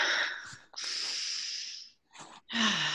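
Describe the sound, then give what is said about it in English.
Deep breathing during a guided practice session: a few long, noisy inhales and exhales with short pauses between them, fairly quiet and with no talking over them. “Okay, take a deep breath.”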